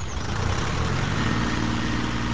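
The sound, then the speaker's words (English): A tractor engine runs in a vineyard during the grape harvest, giving a steady, rumbling low drone that holds an even level throughout without pauses. “A tractor is following behind nine men”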